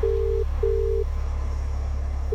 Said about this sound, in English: We are just going to press dial and then see what they say when they answer.